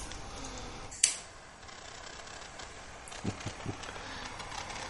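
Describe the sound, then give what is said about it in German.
Table torch lighter in use, a sharp click that trails off briefly, then a few quicker clicks later on, all fairly faint. “benutze natürlich das tolle neue Tischfeuerzeug.”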